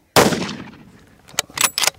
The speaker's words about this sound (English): And the third shot doesn't kill it.